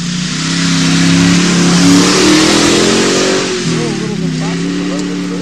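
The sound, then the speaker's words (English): A big Ford Mustang engine roars as it revs hard and accelerates off the start of a race up a steep bridge incline, with a loud, sustained low growl. Voices talk over the engine noise. “Yeah, here comes Mustang. Here comes the big Mustang.”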